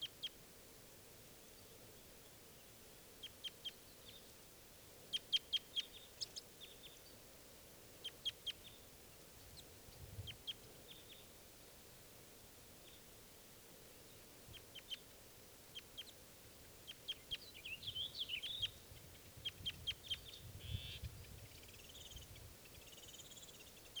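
Faint flight calls from birds in a flock: many brief, high chirps scattered irregularly over a steady hissing background.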